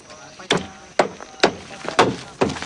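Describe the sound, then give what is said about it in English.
Sharp wooden knocks as a large wooden wheel is hammered onto an upturned cart: five crisp, separate blows at a fairly even pace, each with a quick decay. “Rambo fixes a large wooden wheel to an upturned cart, then hammers it in place.”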